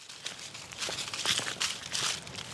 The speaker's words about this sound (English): hike into Brooks Hummel Forest Preserve, a deeply shaded wild place in the heart of Fayetteville.